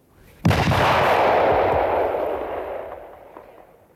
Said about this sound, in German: Ganze Wache, das Gewehr legt an! Feuer!